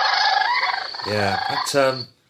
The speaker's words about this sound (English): We have the Sandhill crane call here.